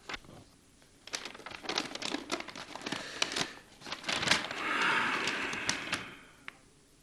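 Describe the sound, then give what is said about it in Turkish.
Paper rustling as an envelope delivered by a military postman is handled and opened: many crinkles and scrapes, a longer swell of sliding, tearing paper noise, then a final sharp crackle. No one speaks. “Size bir zarf geldi. Posta askeri getirdi buyurun.”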